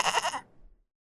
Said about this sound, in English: He ran like a soldier and nearly tripped over a goat who was napping called Woody.